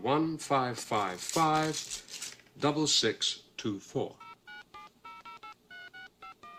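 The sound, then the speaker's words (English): Touch-tone dialing of a telephone number: a rapid series of short, clean electronic beeps at varying pitches, following a few seconds of a person speaking. “Dial a number for me, please.”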